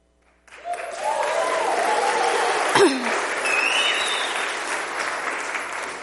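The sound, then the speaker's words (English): A United Methodist church audience bursts into applause and noise after a brief silence, with sustained clapping and a high whoop rising above it, then slowly easing off. “So this morning, make some noise if you're with me.”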